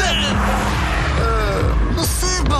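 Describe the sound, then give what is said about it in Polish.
A Honda Civic sedan racing and overtaking another car, its engine roaring loudly and steadily throughout, with squealing tones rising and falling over the drone. “Gość w sedanie nas wyprzedził. Sprawdź, co jeszcze potrafi Honda Civic Sedan.”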